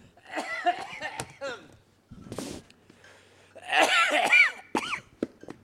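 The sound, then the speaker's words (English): Coughing from something caught at the back of the throat comes as a few short, harsh bursts that break up a man's talking. His voice runs between and around the coughs. “I've got something caught the back of my throat. I'm going to have to stop talking.”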